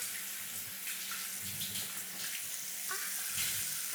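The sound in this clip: Faint running water from a tap pours steadily while someone's body is washed, a soft continuous hiss with light splashing and no talk.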